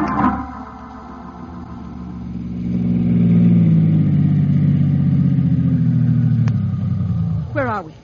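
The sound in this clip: A car engine runs steadily as it is driven through bad weather toward a hideout at Lone Lake, its low hum swelling louder midway before easing off near the end.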